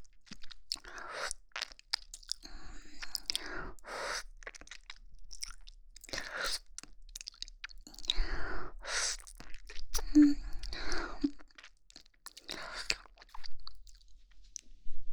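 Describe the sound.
Crunchy chewing of fruit salad, with many wet bites and munches in an irregular rhythm. The sounds are close and fairly quiet, with soft breaths between them and no clear talking.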